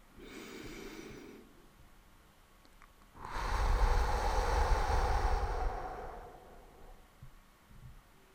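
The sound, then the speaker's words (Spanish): Slow breathing during a guided relaxation meditation: a short soft breath, then a long, loud, airy breath lasting about three seconds before it fades to quiet. “Cuando inhales, inhala aire y armonía. Y cuando exhales, exhala el aire y desarmonía que ya no necesitas.”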